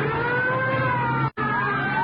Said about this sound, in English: Police cars. All right, don't get excited. They can't be after us.